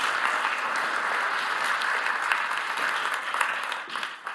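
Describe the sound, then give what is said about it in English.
Audience applause welcoming a speaker: a steady, full wash of many hands clapping without pause, easing slightly at the very end. “put your hands together, please.”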